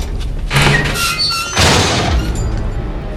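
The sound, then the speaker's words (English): A metal door in a basement corridor being yanked open. It comes as a loud, rough scraping rush in two heavy surges, with thin, squeaky tones between them and a low rumble underneath. “He pulls out his gun as he approaches a metal door, which he yanks open.”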